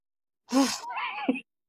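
Heavy, winded breathing after a climb up steep stairs: one loud gasping intake flows into a longer, voiced, sighing exhale, heard alone against silence.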